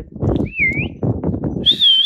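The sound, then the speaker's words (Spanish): A person whistles two short tones over a steady rough background noise, the first rising slightly and the second higher and wavering. “A mí me aviento un chiflidío,”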